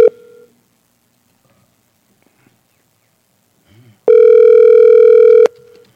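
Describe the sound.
Telephone line tone on a repeated call attempt: a short beep at the start, a quiet stretch, then one loud, steady, buzzy tone lasting over a second before cutting off abruptly.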